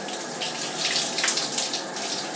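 Shower water running, a steady, fairly loud hiss of spraying water that wavers slightly throughout, with no voices.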